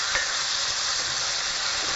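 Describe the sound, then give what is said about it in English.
Tomatoes sizzle in a pan over very low heat, a soft, steady frying hiss that runs throughout with no voices. “You can hear them sizzling. And I've got my heat turned down to super low at this point.”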